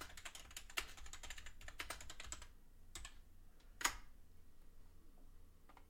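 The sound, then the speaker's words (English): Quiet typing on a computer keyboard: irregular bursts of fast keystrokes, a brief lull, then a few scattered taps and one sharper, louder click toward the end, with no talking. “Type in.”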